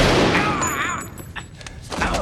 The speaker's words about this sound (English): Shoots Harry.